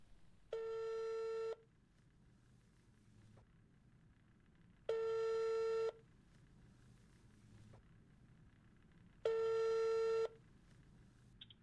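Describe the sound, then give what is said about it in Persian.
A busy signal after dialling a blocked phone number: three evenly spaced tones, each about a second long at a steady pitch, separated by gaps of faint line hiss. “و شماره مسدودی که میگیرم.”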